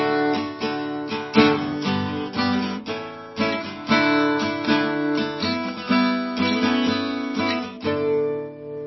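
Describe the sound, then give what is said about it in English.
Acoustic guitar, slightly out of tune, is strummed in a rhythmic pattern using open strings, with many bright strokes ringing together and the chord changing partway through. “if you compare the two strumming patterns”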